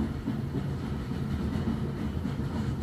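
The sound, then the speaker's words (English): Steady rumble of a train edging along the tracks in gentle curves, a continuous low, even roar with no distinct clacks standing out. “As the train edges along the tracks, sweeping in gentle curves”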